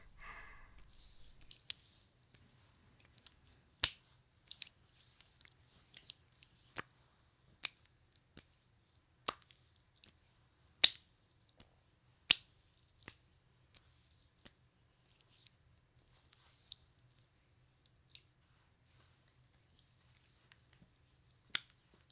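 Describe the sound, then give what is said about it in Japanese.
Palms knead and squeeze the calves during a massage, making faint soft squishing with many sharp little clicks and rustles at irregular intervals, all very quiet. “次は手のひらで揉んでいくわね。よいしょ。こうやってふくらはぎをつかんで、優しくゆっくりと。”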